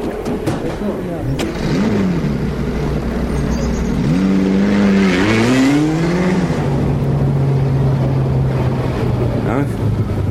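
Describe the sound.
Engine of a taxi car revving, its droning pitch sweeping upward in a few surges, then settling into a steady hum that runs loud through the whole stretch.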